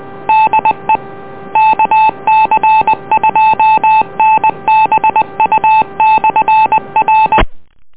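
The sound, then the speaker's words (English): Touch-tone dialing beeps placing an EchoLink call on an amateur radio net: many loud, short tones in quick bursts that stop abruptly. “we'll make another call, see if anyone else on EchoLink would like to check in with us this evening.”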